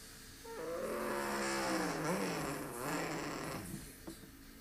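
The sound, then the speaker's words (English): Race truck engines at speed on the track during a truck series race at Pocono, heard as a fairly faint, droning harmonic note that wavers up and down in pitch before fading slightly. “having a great truck up there at the front of the field”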